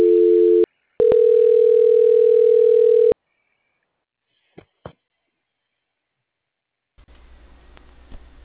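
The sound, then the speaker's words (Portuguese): Telephone call-transfer tone while a caller waits on hold: a steady electronic tone, a brief break, then a longer steady tone, followed by a couple of faint clicks and quiet line noise. “Fique em linha, por gentileza. Transferência. Transferência.”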